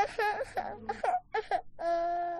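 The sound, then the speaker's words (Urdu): A young girl cries on a children's show: a few whimpering, sobbing bursts that break off, then a longer, steady wail. “ارے بابا کیوں رو رہی ہو کوئی بات نہیں بیٹا آپ گھبرائیں نہیں”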